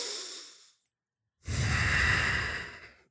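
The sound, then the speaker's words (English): A full, deep breath from a person whose breathing has recovered after medical treatment. Two long, airy breath sounds are separated by a short silence, and the second is louder and longer. “Even now, when I take a full breath,”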